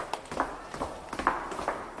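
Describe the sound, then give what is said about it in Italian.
Footsteps descend a staircase in a castle, a steady series of soft, evenly spaced treads, fairly faint throughout. “Scendiamo una scala,”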